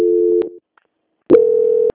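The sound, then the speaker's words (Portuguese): A telephone call transfer tone plays as two steady, mid-pitched electronic beeps, each lasting about half a second, with a short silence between them. “Oi, só um minutinho, vou transferir. Transferência.”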